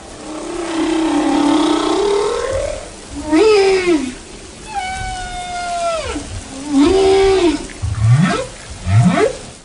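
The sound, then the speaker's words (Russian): A humpback whale sings a series of varied moaning calls, with long tones, sweeping swoops that bend up and down in pitch, and quick rising whoops toward the end, loud and resonant. “Это пение горбатого кита.”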